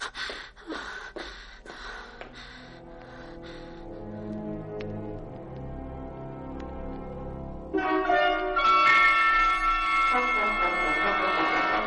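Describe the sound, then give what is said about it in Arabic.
A doorbell rings in a stage drama: a quick run of bright, clanging strikes with ringing tones that linger and fade, followed by a quieter gap and then a louder sustained tonal passage. “جرس الباب يدق”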